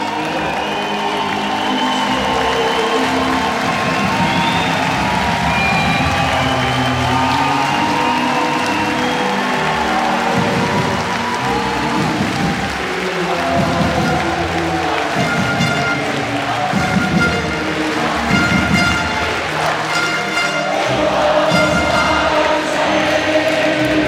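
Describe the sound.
Icelandic spectators in an arena hall cheer and sing together, a loud, continuous mass of crowd voices with clapping and whoops that carries on for the full stretch at a steady level.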